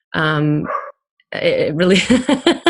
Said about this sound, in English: let that bark be a confirmation.